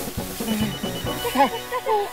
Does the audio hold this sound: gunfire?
no